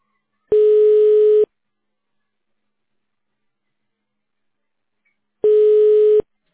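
Telephone ringback tone while a call is transferred to a specialist: two long, steady beeps at one pitch, separated by a long silence.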